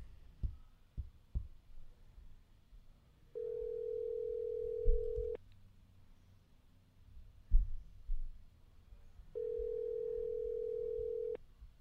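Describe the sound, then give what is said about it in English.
Telephone tone heard while a call is being dialed: two long, steady, mid-pitched tones, each about two seconds, separated by a pause. A low background rumble and a few soft knocks sit underneath. “We're dialing Jessica now. See if we can reach her.”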